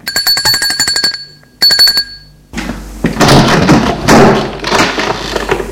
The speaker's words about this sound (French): Il va enfin sonner chez lui.